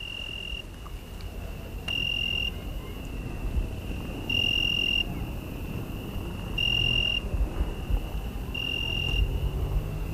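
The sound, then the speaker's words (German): Cicadas and crickets sing in the dark in an Italian village at night: a shrill, steady high-pitched drone runs throughout, swelled by a few brief louder pulsing bursts. “Als ich zur Trattoria zurückgehe, begleitet mich im Dunkel der grelle Gesang der Zikaden. Es hört sich an, als sängen da in der Dunkelheit Scharen von Vögeln. So viele Grillen sind es.”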